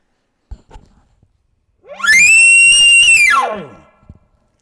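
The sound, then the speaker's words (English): A bull gives an aggressive challenge bugle, a moderately loud call that glides up into a piercing, sustained high whistle, holds for about a second, then slides back down. A few faint clicks and knocks come before and after. “Now he gives me a bugle like, you better shut your mouth or I'm going to come over there and kill you.”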